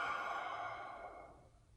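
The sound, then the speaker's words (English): A deep breath let out through the mouth, a soft, airy sigh-like exhale that fades steadily away, faint and alone. “so take a deep breath, maybe two. Into your nose, out through your mouth”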